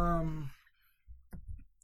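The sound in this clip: Keys handled while someone settles in: a short cluster of light clicks and jingles after a brief stretch of talking, then quiet.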